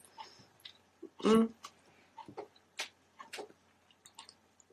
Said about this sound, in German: Und schmeckt's. Ja. Ich finde dafür, dass es irgendwie einfach nur so blöde Supermarkt-Lebkuchen sind. Acrylamid-Haufen sind. Lecker.